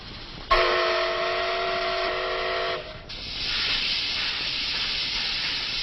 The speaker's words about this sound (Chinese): 列车缓缓驶入南京站。